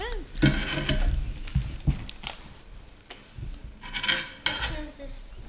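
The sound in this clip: Metal utensils clatter and scrape in a pan as fried ribeye steak is tossed with instant ramen noodles and black bean sauce, giving irregular clanks and clinks of varying loudness.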